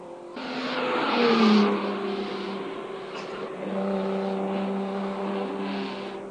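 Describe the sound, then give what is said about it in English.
Race car engines roar around a motor racing circuit in Macau during a 30-lap race, a sustained harmonic drone that swells to a peak, eases, then builds again as more cars pass. “that's all we have time for you with the cars on the fifth lap out of this 30-lap race here at the Gear Circuit in Macau.”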